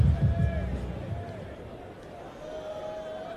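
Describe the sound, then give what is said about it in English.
Restless crowd chatter at a baseball game, fans uneasy as the pitcher fails to throw strikes with a two-run lead and the tying run at the plate; a steady murmur of many voices, fuller at the start, then settling lower. “that's why you can hear that restless-type chatter in the crowd right now.”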